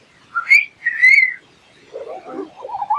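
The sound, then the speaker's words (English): A person whistles in imitation of a groundhog's whistle: two shrill, high-pitched notes in quick succession, then softer, lower wavering tones. “and that's a groundhog whistle.”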